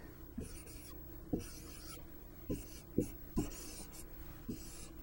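A pen scratches softly as an augmented matrix for a two-variable Gauss-Jordan row reduction example is written out, with faint raspy strokes broken by several light taps at uneven intervals.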